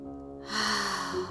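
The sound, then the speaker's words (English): Air drawn in through the nose during a guided breathing exercise. A soft rushing hiss swells after a brief quiet start and holds for about a second over low, sustained background tones, with no talking. “So inhaling through the nose, exhaling through the mouth, inhaling through the nose,”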